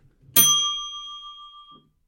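A single bright ding chime strikes once, its clear ringing tone lingering and slowly fading away over a second and a half.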